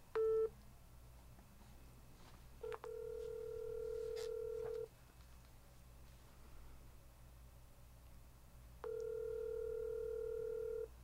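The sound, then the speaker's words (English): A telephone line sounds while a call is being dialed: a short beep, then two long, steady tones of about two seconds each with a long pause between them. The tones are faint over a low background hiss. “He's dialing.”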